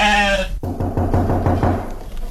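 A donkey bleats like a goat in a quick string of short, quavering, nasal calls, loud and evenly spaced, following a brief sharp break.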